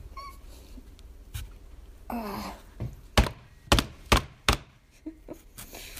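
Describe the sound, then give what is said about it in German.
Knife chopping through a very large, hard food item while cooking: a few heavy, dull thunks land in quick succession, with softer knocks and faint scraping around them. “Es ist gar nicht so einfach, die zu schneiden.”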